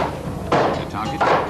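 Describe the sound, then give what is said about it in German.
Heavy hammer blows smash automatic, steam-driven weaving looms as Yorkshire machine breakers attack them. A few loud, sharp impacts land with a brief metallic ring between them. “Sie hauen mit dem Hammer drauf.”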